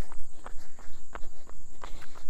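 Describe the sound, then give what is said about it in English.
Footsteps of a person out on a run: many quick, regular footfalls thud in a steady rhythm, loud and clear with no talking. “Anyway, so I'm getting in my last run of the week”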